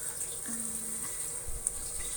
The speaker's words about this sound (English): I am taking an afternoon shower, taking my time